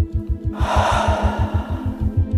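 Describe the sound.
A deep breath drawn in: a long, breathy hiss that starts abruptly and lasts about two seconds, over a steady pulsing low beat.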